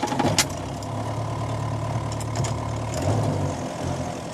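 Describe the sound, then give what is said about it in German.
A vehicle engine drones steadily while driving along rutted tracks, gravel roads and heat-cracked clay roads with deep potholes toward cotton fields in Uzbekistan. The low rumble is continuous, with a few brief rattles near the start and no talk. “Lange fahren wir dorthin auf ausgefahrenen Wegen, Schotterstraßen, hitzezerrissenen Lehmtrassen mit”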